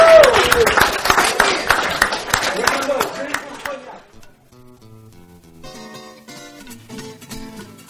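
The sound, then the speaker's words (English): Audience applause greets a departing guest at a live show from the Criollo restaurant at the Hotel Monteleone, a burst of many claps that fades after about four seconds into quieter tonal sound. “Give a big hand to Alexander Gabriel as he rolls off into the sunset.”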